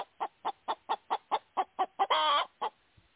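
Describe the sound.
A chicken named Henrietta clucks in a quick, even run of nine short clucks, then lets out one drawn-out squawk followed by a final cluck, all alone and fairly faint.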